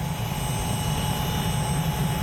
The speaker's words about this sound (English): So there's the helicopter.